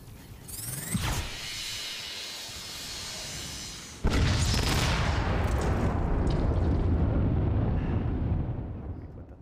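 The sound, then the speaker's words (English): Explosions and gunfire from an augmented-reality combat game on a new iPhone using ARKit and Metal 2: an early sharp blast, a steady roar, then a heavier blast that opens a continuous, loud, rumbling barrage. “Now let's rain fire on our enemies, move closer to their base, and get ready for the fatal blow with our super weapon.”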